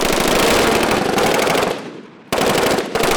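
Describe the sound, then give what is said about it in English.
Machine guns firing at a shooting range as shooters lying prone try to hit targets to qualify: loud, continuous rapid-fire bursts that drop off briefly, then resume sharply, with another short break before a final burst. “The kicking, hard-to-aim machine guns they're partly draped over, trying to hit enough targets to qualify with the weapon.”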